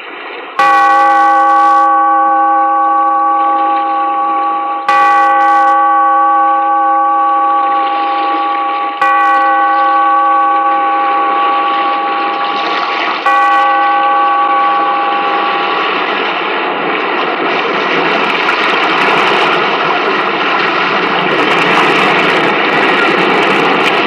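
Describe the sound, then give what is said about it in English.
A bell tolls slowly, calling a gathering together. It gives about four loud strikes several seconds apart, and each one rings on with a sustained hum that fills the gaps. “Bellkeeper, toll the bell so that all may know we are gathered again in the Weird Circle.”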